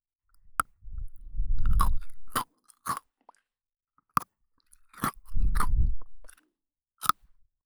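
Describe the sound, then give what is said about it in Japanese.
Crunchy Pocky biscuit sticks being bitten and eaten: a few sharp snapping bites, then two longer bursts of loud, crisp chewing crunch, with no talking. “食べて美味しい、聞いて気持ちいい。ポッキーで、お耳もハッピ”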